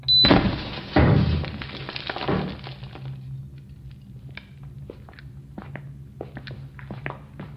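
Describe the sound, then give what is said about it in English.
A breaching charge detonating: a sharp, loud blast followed by two more heavy thuds within about two seconds, then faint scattered clicks and ticks. “Charge is set. Blowing in 3, 2, One. Fire in the hole.”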